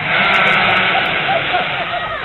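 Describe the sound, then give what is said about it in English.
A bunch of sheep bleating out in a field, their overlapping, wavering cries forming a loud, continuous chorus without a break. “There's a bunch of sheep out in the field.”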